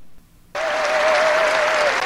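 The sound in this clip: Republican crowd bursts into loud applause during a political speech after a pledge to cut welfare for immigrants for five years. Clapping starts suddenly after a brief quiet moment and holds steady, with a sustained high whistle-like tone riding above it.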